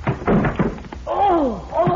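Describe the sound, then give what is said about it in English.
Heavy thuds of a shoulder slamming against an eight-inch-thick door to force it open: a few dull, forceful blows in quick succession, then a voice groaning. “I'm going to try to knock that door open.”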